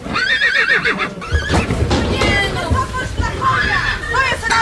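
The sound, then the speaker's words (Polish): Young horses, six or seven months old, neigh while being unloaded down a steep ramp from a truck not built for carrying animals. Repeated shrill whinnies waver in pitch over a background of voices. “Widziała pani, z jakiego stromego podestu spuszczają konie? Tak to wygląda.”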